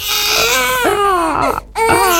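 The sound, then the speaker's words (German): Baby crying loudly in a continuous, strained wail with wavering pitch. It breaks briefly for a breath near the end, then resumes. “Oh je, ein Baby weint im Supermarkt, im Café oder im Zug”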